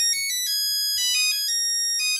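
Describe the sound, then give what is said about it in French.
A phone ringtone plays a bright synthetic melody of quick, high tonal notes set to a catchy pop-hit tune. It rings on its own with no voices. “Oui, on est d'accord que c'est le pire tube de l'histoire de la musique. C'est compliqué sur sonnerie de téléphone, en tout cas.”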